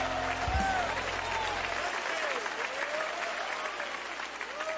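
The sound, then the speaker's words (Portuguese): Congregation clapping hands in praise during a church service, a continuous, dense patter of applause throughout, with faint voices over it. “Palmas para Jesus, palmas para Jesus. Louvado seja Deus. Pode louvar a Deus com as palmas, aleluia.”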